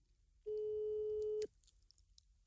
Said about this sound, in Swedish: Jag ska ringa till henne. Undrar om hon svarar.